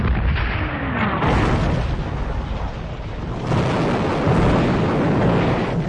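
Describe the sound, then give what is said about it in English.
Naval guns fire as British ships open fire on the French fleet, making heavy, continuous rumbling booms. The blasts merge into a dense, loud roar without clearly separate shots. “The French reject all proposals. The British open fire.”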